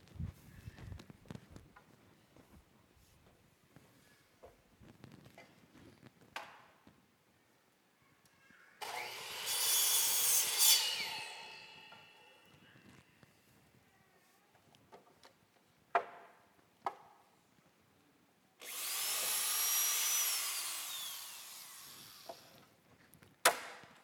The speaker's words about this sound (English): Isn't that satisfying? Just hearing that saw run.